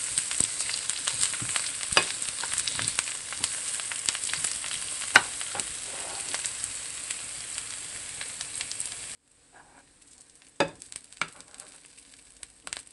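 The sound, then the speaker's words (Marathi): Finely chopped onion sautéing in a pan until pinkish, a dense crackling sizzle for about nine seconds that then drops to a much quieter, scattered crackle. “कांदा गुलाबी रंगावर परतून झालेला आहे, त्यात आपण हिरवी मिरची आणि लाल मिरची घालूया।”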